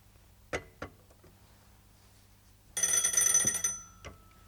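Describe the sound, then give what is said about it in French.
A telephone bell on a busy shared line rings in one loud, bright, rattling burst lasting just under a second, with a few sharp clicks before and after. “on me sonne et je ne peux pas parler, il y a du monde sur la ligne”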